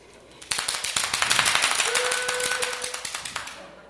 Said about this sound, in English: It did make a noise. Yay. So, boys and girls, if you can find any noisemakers at home,